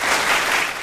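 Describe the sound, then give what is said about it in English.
Audience applause following a correct answer on a quiz, a short burst of dense clapping that dips slightly at the end. “Applause coming in a little late, but nevertheless coming in.”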